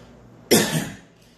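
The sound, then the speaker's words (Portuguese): A man gives one harsh, rasping cough that bursts out suddenly, carries a rough second push, then trails off within about half a second against a quiet background. “Por isso que ele tosse.”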